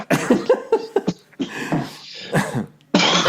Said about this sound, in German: Und wenn du merkst, du musst husten, dann drehst du dich weg von diesem Mikrofon.